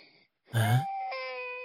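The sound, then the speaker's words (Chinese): A child cries in a palace near the imperial study: one loud, tonal wail that holds steady and then continues at a lower, sustained level, after a faint brief sound. “谁家的孩子在哭啊？”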